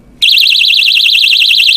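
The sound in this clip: A personal safety alarm sounds very loudly: a piercing, rapidly warbling high-pitched tone that switches on abruptly and then holds at a steady, harsh level without pause.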